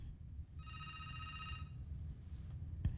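A telephone rings on a call-in line that goes unanswered. A single electronic ring burst of about a second sounds faintly over a steady low rumble, followed by quiet background noise.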